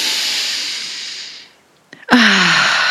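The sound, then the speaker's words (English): A deep cleansing breath drawn in through the nose during a guided breathwork meditation. A long airy hiss fades out, small clicks follow a brief pause, then a loud, sharp breathy rush carries a falling voiced tone. “taking a moment to place your hands over your heart and just taking one last deep cleansing breath in through the nose.”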